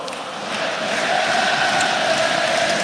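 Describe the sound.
Football supporters of Saint-Étienne fill a sold-out stadium during a playoff match with a continuous crowd roar and a sustained chanting tone, growing slightly louder after the first second.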